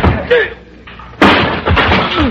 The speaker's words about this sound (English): You knocked him down with a chair.